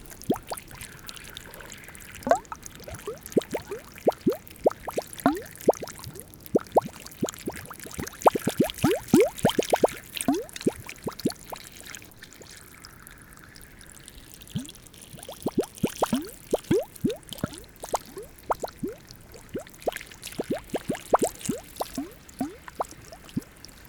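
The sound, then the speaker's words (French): Water gurgles and trickles like plumbing, with clusters of sharp bubbling pops and glugs. Louder irregular bursts alternate with quieter stretches. “L'eau qui glousse comme une tuyauterie.”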